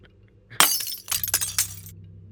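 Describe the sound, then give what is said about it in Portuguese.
Glass shattering as the window of a locked Onix car is smashed. One sudden loud crash is followed by a burst of tinkling, scattering shards that fades out. “Tu vai quebrar a janela para poder entrar? Vou.”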